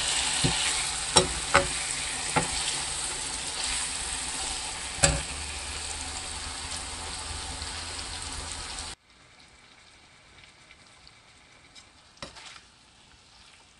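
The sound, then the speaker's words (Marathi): Chicken sautés in a pan with a continuous hissing sizzle, broken by a few sharp clicks and scrapes of stirring, before the sizzle drops abruptly to a much quieter, softer crackle. “Chicken व्यवस्थित परतून झालेलं आहे।”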